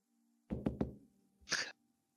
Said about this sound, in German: Du kannst an seine Tür klopfen.